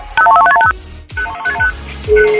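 Touch-tone beeps ring out as a phone call to a radio show connects: quick clusters of short electronic tones in two bursts, with low thumps and a busy background between them.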